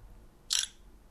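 Camera shutter firing once to photograph a paper note: a single short, crisp click, fairly loud against a quiet background.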